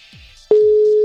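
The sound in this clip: An outgoing voice call gives its ringing tone: after a brief quiet lead-in, a single steady mid-pitched tone starts abruptly and holds unbroken to the end.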